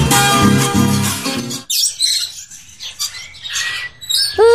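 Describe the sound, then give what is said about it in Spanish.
Small birds chirping and singing in quick, high, overlapping calls, heard just after a brief passage of music ends. “Ya cantan los pajaritos, ¿qué horas serán?”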